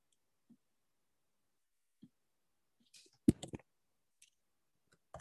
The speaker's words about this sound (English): I'm going to type it into the chat box.